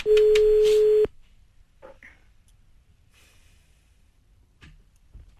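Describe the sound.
Outgoing telephone call ringback tone: one steady, loud, pure electronic tone lasting about a second, then near-silence with a few faint, scattered noises.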